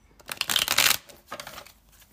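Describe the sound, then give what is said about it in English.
Tarot cards being shuffled by hand: a crisp, dense riffling burst followed by a shorter, softer second flurry of fluttering card edges. “We'll pull you six cards as well from the African American tarot deck.”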